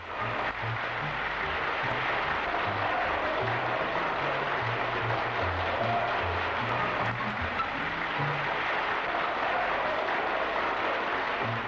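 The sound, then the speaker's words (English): A theatre audience at the 20th Century Theatre gives a welcoming ovation, a dense, steady wash of clapping that holds at an even level from start to finish. “The same evening, she made a personal appearance at the 20th Century Theatre, and once again received a welcoming ovation.”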